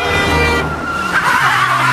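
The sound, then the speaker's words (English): A car drives toward a bridge in Holborn, producing a loud, continuous engine hum and road roar whose tone shifts partway through. There is no talk. “He drives to Holborn Bridge.”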